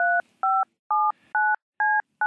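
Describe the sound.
Touch-tone beeps as a telephone number is dialed: six crisp, evenly spaced tones, about two per second, each separated by near silence, with no talk.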